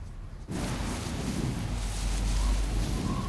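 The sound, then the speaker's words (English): Wind lashes the tops of trees, a steady, loud rushing roar that surges in suddenly after a quiet start and holds without a break. “Outside, the wind lashes the tops of the trees.”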